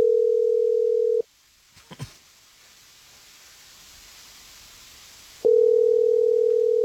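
A steady telephone dial tone hums while a call is placed, then cuts off. A few clicks and a soft hiss follow before the same steady tone returns.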